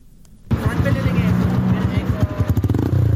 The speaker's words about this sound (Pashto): دا په 400 کې موټر سایکل سوار سیلانیان دي.